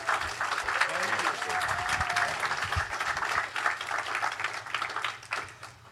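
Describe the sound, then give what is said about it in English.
A church audience gives a pastor a warm welcome with loud, dense applause, and voices cheer over it early on. The clapping stays strong before thinning and tapering off near the end. “Give Pastor Love a warm welcome.”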